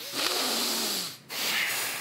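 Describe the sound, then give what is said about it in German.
Forceful breathing through the nose during an abdominal bracing exercise: two long, hissing, breathy blasts with a brief gap between them, fairly loud and alone. “Dann kurz einatmen. Dann ausatmen. Genau, am besten in der Nase.”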